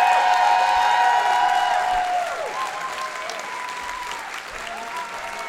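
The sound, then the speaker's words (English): A live audience applauds and cheers to welcome guests onto the stage. Loud, sustained clapping with scattered whoops starts at full strength and eases slightly toward the end. “Please give a big warm welcome to Mark McConville, Matt Gourley, and Paul F. Tompkins.”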